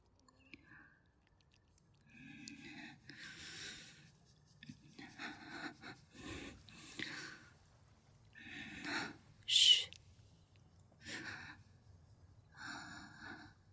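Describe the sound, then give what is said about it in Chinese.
Quick, heavy breathing, roughly one breath per second, with faint breathy rushes, occasional snorts and gasps, mostly quiet and alone. “你现在的呼吸很急，呼吸频率是一秒。”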